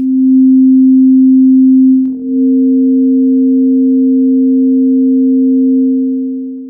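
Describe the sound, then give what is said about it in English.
A steady pure sine tone at middle C sounds alone for about two seconds. A second, fainter pure tone about 75% higher then joins at 10% strength, and the two hold together as a continuous blend until they fade at the end. “Now let's combine them with equal strength. Now we'll take middle C and add in 10% of the new frequency.”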